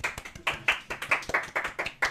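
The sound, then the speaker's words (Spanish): Hand clapping, a thin run of distinct, crisp claps from just a few hands, spaced at a fairly regular pace with slight unevenness, fairly quiet and alone. “A ver, aplausos.”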